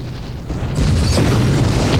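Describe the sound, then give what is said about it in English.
A deep explosion as a plume of fire erupts into a city after the ground shakes, sending up black smoke: a low rumbling roar swells, jumps louder partway through, then holds as a sustained, heavy boom. “A plume of fire explodes into the city, sending up a column of black smoke.”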